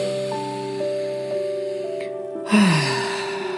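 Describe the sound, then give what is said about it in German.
A deep breath drawn in and let out through the mouth, taken once near the end as a breathy rush over soft, sustained, calm tones. “Atme ein paar Mal tief ein und über den Mund wieder aus.”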